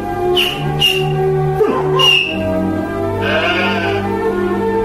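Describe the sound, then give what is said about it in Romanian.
Sheep bleat a few times, wavering calls rising above a steady tonal drone, with a longer bleat near the end. “Hai că nu se cuvine să rămâneți aici cu oile voastre.”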